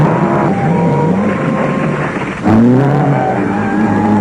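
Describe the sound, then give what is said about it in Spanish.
A car engine drones steadily during a chase as a tyre fails and the driver loses control, then surges abruptly louder and higher midway before holding a strained roar. “¡Un neumático! ¡No puedo controlarlo! ¡Sujétese, inspector!”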